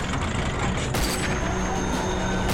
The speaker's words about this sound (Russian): Резко повернувшись на месте, танк едет вдоль траншеи.